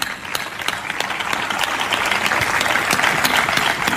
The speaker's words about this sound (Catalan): Per tant, aquí ve el meu aplaudiment a vosaltres,